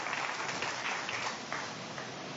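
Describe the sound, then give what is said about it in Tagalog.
A church audience applauding for the Lord during a worship service, a dense, steady wash of clapping that holds at a fairly soft level throughout. “Come on, palakpakan natin ang Panginoon na malakas.”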